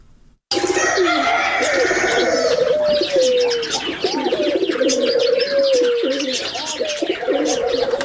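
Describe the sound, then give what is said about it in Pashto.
Pigeons cooing and other birds chirping at a bird zoo in Uruzgan province, bursting in after a brief silence and continuing as a dense, loud, overlapping chorus of coos and tweets. “نو موړی په د ژوبڼ کې لسګونه ډوله مرغان لري چې هر ورځ لیدو ته ګڼ کسان ورځي.”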